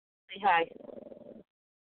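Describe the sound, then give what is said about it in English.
A small, crabby rescue dog growls: a brief whiny onset, then a low, rapidly pulsing rumble lasting about a second, alone against silence. “Say hi. You growling? There's my little baby. He's my rescue dog. And he's crabby,”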